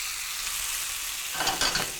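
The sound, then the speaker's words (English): Bologna frying in a little oil in a pan: a steady, bright sizzle that swells into louder crackling and spitting partway through, with no voices. “A little bit of color, nice, delicious. Cooking in a little bit of oil.”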